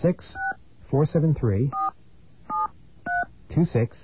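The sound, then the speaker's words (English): Touch-tone keypad dialing of a telephone calling a voicemail line: a few short, steady beeps spaced irregularly, with people talking between them. “Let me grab another dial tone here.”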